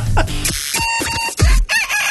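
A person imitates seagull calls in a calling contest, giving loud, harsh, nasal squawks in a few quick bursts with wavering pitch.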